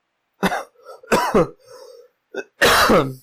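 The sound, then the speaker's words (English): Coughing and throat clearing: a few harsh, raspy bursts in quick succession, heard alone without any speech. “Sorry, all this talking's got me talking, got me coughing and stuff.”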